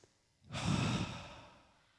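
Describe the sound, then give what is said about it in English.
People taking a deep breath in together on a spoken cue: one long, airy rush of breath that swells quickly and then slowly fades away. “Everybody go like this. Take a deep breath in.”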